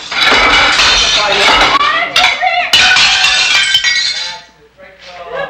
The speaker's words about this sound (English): Connie hurls dishes, eggs, and dry spaghetti to the floor. That's it. Break it all